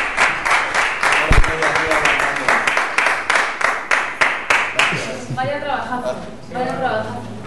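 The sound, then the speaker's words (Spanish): Audience applause at a lecture rises as a dense patter of many hands clapping, then tapers off under a man's voice speaking. “Yo os aplaudo a vosotros por la paciencia.”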